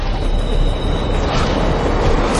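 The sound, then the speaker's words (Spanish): A subway train arriving at a station gives a loud, steady roar of rumbling and rattling, with a thin high whine early on, continuous throughout and no voices. “El tren llega a una estación.”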